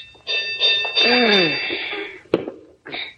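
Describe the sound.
A fire alarm box bell rings at a fire station with a bright, sustained metallic tone while a man talks over it. A sharp knock and a final short ring follow near the end.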